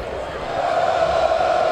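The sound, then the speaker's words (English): Baseball stadium crowd cheering at a Braves home game, a steady roar of many voices that swells slightly and holds, with a sustained tonal note running through it. “Crowd really into it.”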